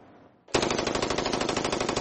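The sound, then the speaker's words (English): Rapid automatic gunfire from a weapon fitted with a bump stock: after a brief quiet lead-in, a loud, fast, even stream of many shots rattles on without pause to the end. “Bump stocks are aftermarket additions that allow weapons to fire hundreds of bullets a minute.”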